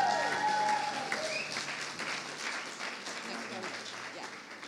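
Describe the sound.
An audience at a church gathering bursts into applause as a speaker is welcomed up. The clapping is dense and continuous, loudest at the start and easing gradually over roughly five seconds.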